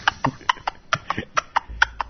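A person mimics a horse's hoofbeats with the mouth: a quick, regular clip-clop of many sharp tongue clicks, heard alone and evenly spaced.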